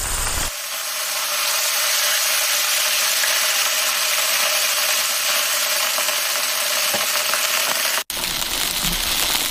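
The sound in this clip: Steady, dense sizzling of paddlefish frying in hot oil with seasonings, a loud continuous crackling hiss that runs almost unbroken for the whole clip, with one brief cut near the end.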